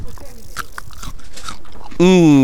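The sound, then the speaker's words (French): Crisp crunching as fresh early-season radishes are bitten at the Sarralbe market: a few sharp, bright crunches over a low, steady background, then a voice begins talking at the end. “je suis en train de croquer du radis”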